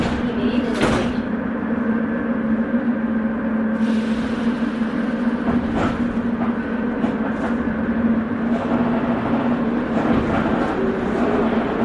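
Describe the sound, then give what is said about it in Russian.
Metro train doors closing before Vodny Stadion station: a few knocks and thuds of the sliding doors over the loud, continuous rumble and hum of the moving carriage. “Осторожно, двери закрываются. Следующая станция – водный стадион.”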